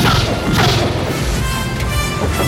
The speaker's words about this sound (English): They escape and run from the airfield as the plane is first engulfed in flames and then explodes into a huge fireball.